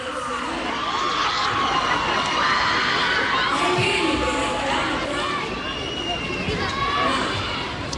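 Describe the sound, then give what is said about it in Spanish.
Crowd noise at a live outdoor festival show at the Expo Mimbre wicker fair in Chimbarongo, Chile: steady cheering, whoops and children's shouts mixed with chatter throughout. “Estamos en Chimbarongo, en vivo y en directo. Estamos en la ruta de los festivales. Ya casi 40 minutos de show. Y con un ambiente maravilloso. Escuchen el ruido ambiental, ¿eh?”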